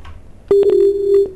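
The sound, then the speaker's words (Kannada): A telephone disconnect tone after a phoned-in call drops: one steady, mid-pitched tone lasting under a second, opened by a few sharp clicks, loud and heard alone. “ಕರೆ ಕಡಿತವಾಗಿದೆ ಸಂತೋಷ್ ಅವರೇ”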